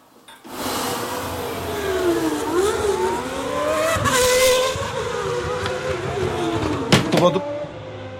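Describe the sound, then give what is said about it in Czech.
Formula 1 race cars drive at the Spanish Grand Prix, their high-pitched engine whine rising and falling as they speed by. The sound starts abruptly and builds to a loud, sustained roar. “Dámy a pánové, sledujete velkou cenu Španělska Formule 1.”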